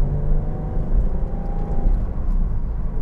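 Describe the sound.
Low, steady engine rumble and road hum inside a newly bought car while it is driving. The drone is fairly loud and even, with no voices over it.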